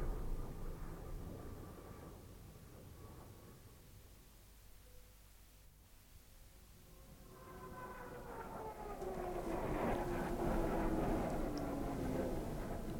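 A low, droning rumble of aircraft flying far away and high, faint and steady at first, then swelling louder in the second half with a sliding tonal hum over broad noise.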